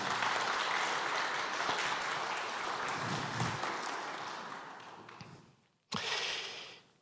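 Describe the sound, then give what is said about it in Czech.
Audience applause greeting an arriving procession: dense, steady clapping that gradually fades by about five seconds, then a brief silence and a fresh loud burst of clapping near the end. “Právě teď přichází, já myslím, že klidně tomuto průvodu můžeme zatleskat.”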